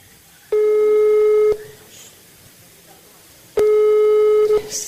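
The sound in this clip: Telephone line tone on a recorded call: two long, steady, buzzy beeps, each about a second long, separated by a gap of roughly two seconds with faint background noise.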